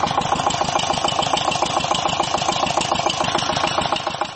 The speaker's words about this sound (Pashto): کروندګر د پالیز د پاره اوبه د ژورو څاګانو نه د واټر پمپ ماشین په واسطه راباسي.